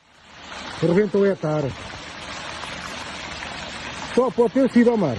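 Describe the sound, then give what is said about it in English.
Red wine rushing down a steep street in a small hilly town in central Portugal makes a steady, washing flow, and people's voices call out over it twice. “That is the sound of a video taken by a Portuguese man on his mobile phone of a river of red wine flowing down a steep street in his small town in the centre of the country.”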